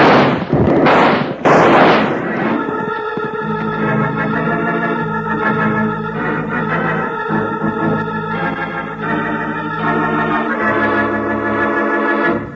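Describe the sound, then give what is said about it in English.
Rifle shots in a radio western drama: a few loud, sharp cracks at the start, then sustained music takes over for the rest of the scene. “Unlimber that rifle and give it to him.”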